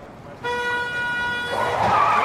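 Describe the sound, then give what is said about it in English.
A bus slams into a station wagon in the road: a steady, sustained horn blares for about a second, then gives way to loud, rough skidding noise that continues to the end. “A bus slams into a station wagon.”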